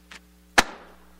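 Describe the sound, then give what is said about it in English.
A box of file folders is dropped onto a stage. A faint tap comes first, then a single heavy thud that decays briefly. “Why did that box fall down and hit the stage instead of floating around the room?”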